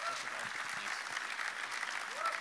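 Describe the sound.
Applause from an audience at the Inspire faith gathering welcoming speakers to the stage, a soft, continuous clapping with a few voices audible underneath.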